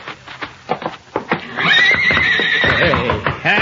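A stallion kicks its stall with several irregular thuds, then lets out a loud, long, wavering whinny that rises high and stays strong to the end.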